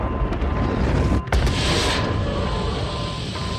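A dramatized submarine fires a torpedo: a sustained rushing roar, a sharp burst near the middle, then a long hissing whoosh that slowly fades.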